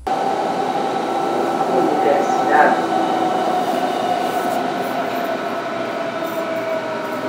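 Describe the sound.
A train pulls into a station with a loud, steady, unbroken rumble and a constant mechanical hum.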